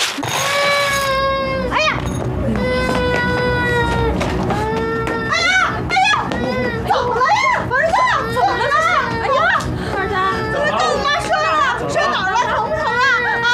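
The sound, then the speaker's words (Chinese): Young children play with Transformer toys, their high-pitched voices rising and falling in quick, excited bursts that grow into a busy, crying-like wail in the second half. “外面跟她小哥玩变形金刚呢。”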